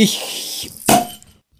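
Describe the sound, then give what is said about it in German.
A beer bottle is opened with one short, sharp pop and a brief fizzing hiss that quickly fades to silence, following a stretch of talking. “Lass mal das Bier aufmachen. Mach mal das Bier auf.”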